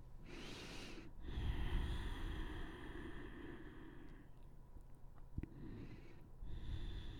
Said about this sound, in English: get back to the breathing in and out of your nose